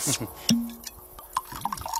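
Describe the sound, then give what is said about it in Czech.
Tokaji wine from the imperial cellars being poured: a faint liquid trickle with small splashes and drips, fairly quiet and uneven over about two seconds. “Právě se nalévá. Nejjasnější jasnosti, prosím. To kajské z císařských sklepů.”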